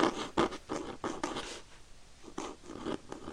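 A quill pen scratches across paper in many dry, rasping strokes with an irregular rhythm. The strokes are fairly faint and break off in a short pause partway through before a few more follow.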